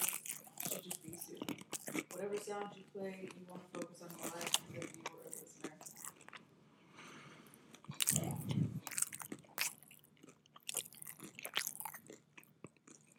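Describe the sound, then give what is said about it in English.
Crunchy food chewed slowly, ASMR-style, giving moist bites and crisp crunches, with a louder burst of crunching near the end; a person talks over and between the chewing. “Take my time and chew slowly.”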